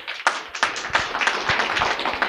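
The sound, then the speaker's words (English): Scattered clapping from a small audience at a podcasting gathering: a few people clap irregularly, giving sharp, uneven hand claps that overlap loosely rather than forming a full, dense roar. “So give yourselves a round of applause.”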